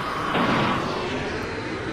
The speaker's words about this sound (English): Got in the helio chopper. It's taking off.